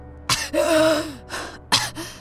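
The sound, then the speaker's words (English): Ragged, labored breathing of a dying woman: a few strained gasps, one drawn out into a voiced, wavering groan-like breath, with short pauses between them. “Her body slowly turned pale as her breaths became ragged.”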